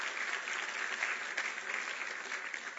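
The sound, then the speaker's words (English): A church audience applauds to welcome a returning member, a soft, steady patter of many hands clapping that stays even throughout. “So we welcome you back, Evelyn. We love you. We thank you. It's good to see you. Let's give her a welcoming hand.”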